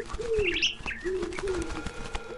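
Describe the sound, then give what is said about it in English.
Pigeons coo in a few low, rolling phrases while parakeets add bright, higher chirps on top, a busy mix of bird calls throughout. “suddenly, I heard the cooing of pigeons, the chirping of parakeets, and the flapping of wings.”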